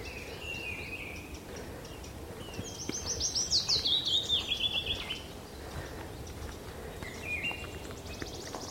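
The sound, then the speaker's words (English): Wood warbler song on Sugar Loaf mountain, a high, accelerating trill that swells into a fast, shivering run, with a few faint chirps before and after over a soft, hissy background. “Ah, there's a wood warbler.”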